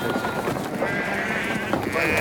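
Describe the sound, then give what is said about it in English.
Sheep bleating as they trot out of a livestock transporter beside rows of animal pens in a wide-open parking area: wavering calls over a continuous, busy background. “Jack checks his rifle and sheep trot out of the transporter.”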